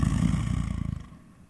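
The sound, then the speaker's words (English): A tranquilized lion snoring: a low, rumbling rasp with rapid, regular pulsing, loud at first and fading toward the end. “Lions hunt at night and nap all day. This is a snoring lion.”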